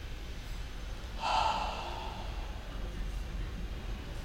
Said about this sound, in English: Nice deep breath.